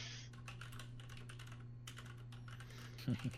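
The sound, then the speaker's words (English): Faint, irregular clicking of typing on a computer keyboard, many quick keystrokes over a low steady hum. “I was going to type while you were talking, and then it got quiet for a second.”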